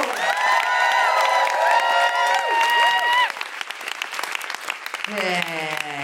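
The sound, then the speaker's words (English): Audience applause at a live show as a performer is welcomed, a steady wash of clapping with high whooping cheers through the first half, thinning toward the end, where a voice comes in. “Please keep that applause going for Jessica Mostigo!”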